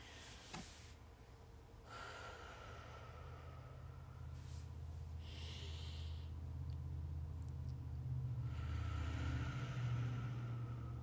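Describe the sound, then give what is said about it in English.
Faint, slow deep breaths taken to calm down before a prayer, a few soft airy inhales and exhales spaced across a quiet stretch, with no talking. “We're going to take some deep breaths just to calm the energy down and clear out the space, okay?”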